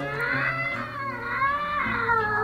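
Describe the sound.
A cat's horrible, drawn-out meow rings out loud and alone near an open gallery window, its pitch wavering and bending throughout in one continuous, strained yowl.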